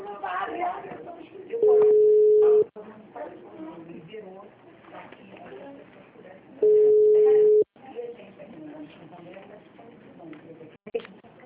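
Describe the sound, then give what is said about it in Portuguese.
Two steady, loud ringback tones from an outgoing telephone call. Each lasts about a second, and a few seconds of muffled background voices separate them. “eu tenho que fazer uma ligação aqui”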